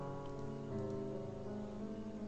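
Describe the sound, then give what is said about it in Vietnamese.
Steady rain falling in Paris, an even, continuous hiss that holds at the same level throughout, with sustained tonal sounds running underneath. “Trời lại bắt đầu mưa, kiểu thời tiết này duy trì suốt đã nhiều ngày.”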